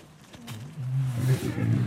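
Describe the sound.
Deep, rumbling growl of a lion with a scratched nose, quiet and low at first, then swelling into a louder sustained rumble for the second half.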